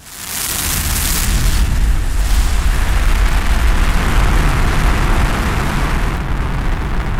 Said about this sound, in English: The space shuttle Endeavour soared upward with such a great force that Dr. Mae Jemison was pushed back into her seat so she couldn't move or speak.